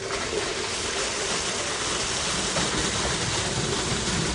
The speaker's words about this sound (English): The water being pumped into their well was hauled here from the public water supply of another town